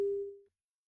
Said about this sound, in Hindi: Hello, phone cut गया है।